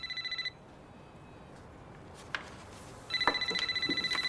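A cell phone rings with a short burst of electronic tone, goes quiet, then rings again with a rapid, pulsing trill that continues to the end.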